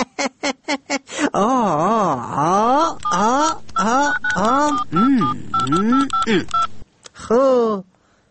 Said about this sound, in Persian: تو باش که با وزیر صاحب زمین به هوا زنگ بزنم.